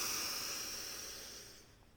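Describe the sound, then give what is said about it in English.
A long, deep exhale during a yoga breathing exercise: a soft, airy hiss that starts strongest and slowly fades over about two seconds, with no talking. “Big breath in. Big exhale out. Last one, big inhale. Fill all the way up.”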